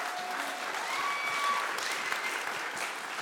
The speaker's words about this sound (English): Can you just welcome him with a hand?